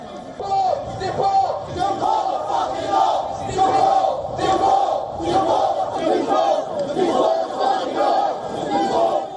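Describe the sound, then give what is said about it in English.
A counter-protest crowd of about 300 chants "Refugees are welcome here" against an anti-migrant rally. Loud, rhythmic massed voices repeat the slogan in steady waves from start to end. “Around 300 people joined that rally, chanting, "Refugees are welcome here."”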